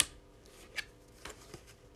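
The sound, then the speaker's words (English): Tarot cards being turned over: a few soft, brief papery flicks and snaps spaced apart, faint and without voices. “So I'm going to turn over the 2 cards that came up face down and see what's kind of working behind the scenes.”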